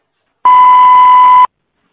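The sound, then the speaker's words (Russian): A voicemail beep signal sounds once: a loud, clean, steady mid-pitched tone that lasts about one second, with silence before and after. “Звонок был перенаправлен на голосовой почтовый ящик. Вы можете оставить сообщение после звукового сигнала.”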